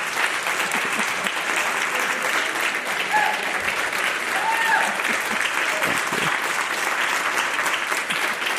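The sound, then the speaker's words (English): Standing ovation for Congresswoman Jackie Speier from an audience in Palo Alto at the close of an evening program. Dense, loud clapping from many people continues evenly for several seconds. “For the, our radio audience, we have a standing ovation here.”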